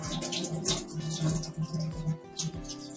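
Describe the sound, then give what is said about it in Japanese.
Running hot water splashes over yellowtail trimmings as they are blanched and rinsed, a steady, continuous gushing and spattering that lasts throughout with no speech. “ブリのアラを買ったので、とりあえずアラって、今、これ湯通ししてます。”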